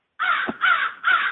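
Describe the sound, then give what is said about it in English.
Crows calling outdoors: three loud, harsh caws follow one another at an even pace, each call rough and nasal against a quiet background. “You can hear the crows calling away in the background.”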